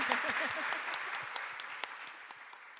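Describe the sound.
Audience applause breaks out after an evening talk at the Australian Centre for Contemporary Art in Melbourne: dense, steady clapping that fades slowly, with a voice heard briefly at the start.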